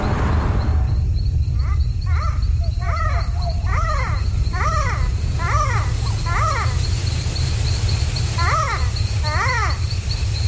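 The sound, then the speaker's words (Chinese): A small primate calls at night on the rainforest floor, giving many short, chattering call bursts in a broken series. A constant high insect trill and a low rumble run underneath. “这是鹰猴的声音，它是一种小型灵长目动物。”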